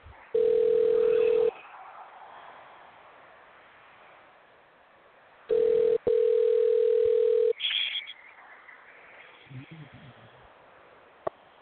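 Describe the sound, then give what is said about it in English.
Telephone dial tone while a call is dialed: a loud, steady, unbroken tone sounds in three separate stretches, each cut off abruptly, followed by quieter line noise and faint rustling. “I hope I wrote that down right. Let's see here. All right, dialing. Here we go.”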